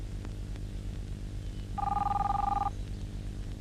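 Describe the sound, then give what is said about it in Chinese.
A telephone rings once in a single warbling electronic burst of about a second. A low background murmur runs before and after it. “你不想接电话？”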